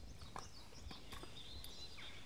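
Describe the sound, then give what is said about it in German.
Horses walking on a long-distance hiking trail, hooves clip-clopping: a few faint, irregular hoof clops over a low background. “Ich bin mit meinen Pferden auf dem Westweg unterwegs”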